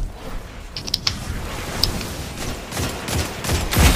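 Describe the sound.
Gunfire from the video game Destiny 2 comes in a few sharp, quick cracks and scattered bursts over a noisy rumble, growing busier toward the end, with no voices.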